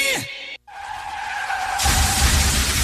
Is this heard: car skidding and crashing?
yes